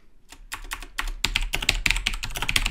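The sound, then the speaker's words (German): Rapid typing on a computer keyboard while writing in a Telekom online support chat: many quick, crisp keystrokes in an uneven stream that grows denser and louder toward the end, with no voices. “So, mal gucken, wer mir antwortet. Ich schreibe jetzt einfach mal.”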